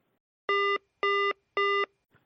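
Electronic call-waiting beeps on a telephone line: three evenly spaced, buzzy, mid-pitched tones, each about a third of a second long, sounding alone with short gaps between them.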